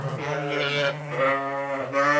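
Sheep bleat inside the North Country School barn on a cool spring day, where students help raise sheep and chickens. A few long, quavering, nasal bleats follow one another with only brief pauses, fairly loud.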